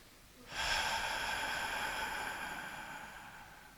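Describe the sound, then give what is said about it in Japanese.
A slow, deep breath during an abdominal breathing exercise comes as one long, airy exhale that starts after a short pause and holds steady before gradually fading. “まず吸って吐きます。吐き切るまで。もう一回吸って、”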